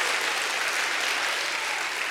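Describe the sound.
A church audience claps together during a service. The clapping is continuous, dense and fairly loud, with no voices heard over it.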